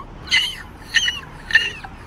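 A person imitates a gull mating call with three high, squawking cries spaced evenly apart, each short and bright against an otherwise quiet background.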